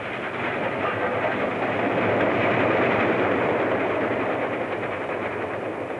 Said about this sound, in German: Ich schicke die Züge, die sie fortbringen, bald nach rechts, bald nach links.